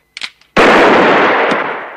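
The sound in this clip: A single loud gunshot, fired by a gunman at a man's right arm, bursts out after a few faint clicks and rings on in a broad, slowly fading decay.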